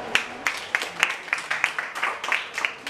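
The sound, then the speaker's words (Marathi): Audience applause at a nursing college student gathering comes as faint, evenly spaced claps in a steady rhythm, many sharp hits in a row with little overlap. “खरंच तुझं खूप खूप अभिनंदन आणि या मैत्रिणीसाठी तुम्ही जोरदार टाळ्या वाजवा एकदा.”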